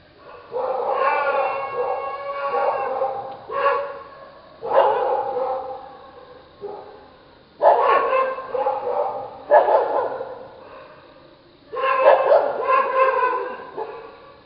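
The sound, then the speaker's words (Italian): Guard dogs near village cottages, just awakened, bark and howl in repeated loud bursts with short pauses between them, keeping up a restless clamour throughout. “i latrati dei cani da guardia svegliati”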